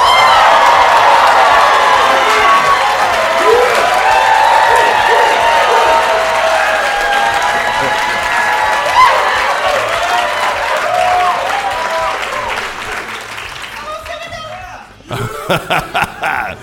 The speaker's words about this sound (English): Let's see you Schwartzman scholars and other friends make some noise.